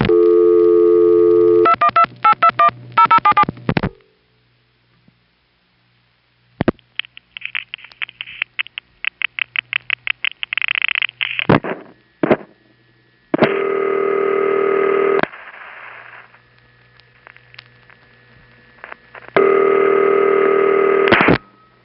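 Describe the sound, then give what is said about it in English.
Telephone revertive pulses on a call to a panel exchange come as bursts of rapid clicking pulse trains, spaced by silences. Steady buzzing tone blocks surround them, all sharp and fairly loud, with no voices. “Each revertive pulse sequence to a panel office is five digits. The 111 will just sound like a bunch of noise to you, but you can hear the last two digits.”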